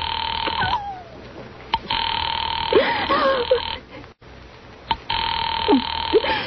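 A telephone rings on the line while a caller waits for an operator to put through a call, steady buzzing tone bursts with short pauses between them and a few faint scattered sounds in the gaps.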